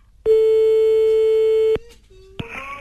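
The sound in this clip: Telephone tone of an outgoing call: one long, steady, mid-pitched ringing tone lasting about a second and a half, then quieter line noise and a short second tone near the end.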